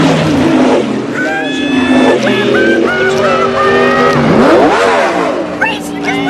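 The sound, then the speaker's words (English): A car speeding along a dark road, a loud, continuous engine roar with whining tones that shift up and down in pitch, blended with other sounds throughout. “A car speeds along a dark road.”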